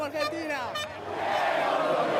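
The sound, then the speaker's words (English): A crowd of football fans cheers their team in a Buenos Aires park. A voice speaks briefly at first, then a broad, dense roar of many voices swells and holds steady to the end. “At this Buenos Aires park, thousands of fans gathered to watch the game and cheer their team from more than 13,000 kilometers away.”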